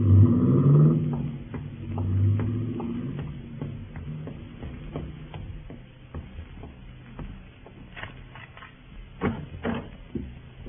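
A car drives off: a deep engine rumble swells at first and then fades away, leaving faint scattered clicks and ticks behind.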